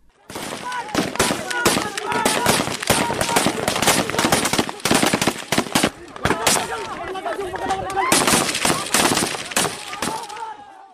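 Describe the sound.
Gunfire at a camp as men are hit, with dense, rapid bursts of automatic shots, many sharp cracks crowding together in long volleys, briefly broken by short gaps, and voices mixed in among the shooting.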